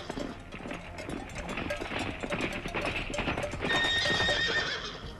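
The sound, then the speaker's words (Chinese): War horses approaching, many rapid clip-clopping hoofbeats that grow slightly louder, with a horse whinnying near the end. “只听营帐外啊，战马铃铛的响声不断的接近。”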